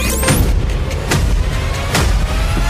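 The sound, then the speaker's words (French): Fireworks explode in a few loud, sharp bangs with crackling tails over a steady rumbling wash of blasts, with whistling rising sweeps near the start. “Et pourquoi pas un feu d'artifice avec Pyrostar.”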